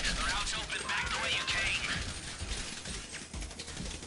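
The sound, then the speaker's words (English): Gunfire hits the player during a Diamond Casino heist in GTA Online. It makes a dense, continuous clatter of shots and rattling impacts that stays loud throughout. “Now, every time we get shot, we're losing money.”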